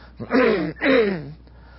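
A person clears their throat twice in quick succession during a sermon. Each burst is voiced and drops slightly in pitch, with a brief pause between them.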